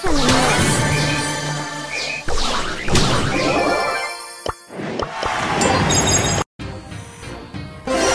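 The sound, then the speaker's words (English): Crashing smashes from a baseball bat swung in a video game, a dense, loud run of impacts with shattering clinks and whooshes over a busy continuous game soundscape, cut by a brief dropout near the end. “Gotta get that loot! Batter up! Swing!”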